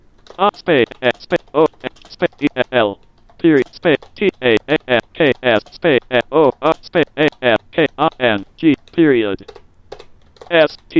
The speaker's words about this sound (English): I just typed a reply.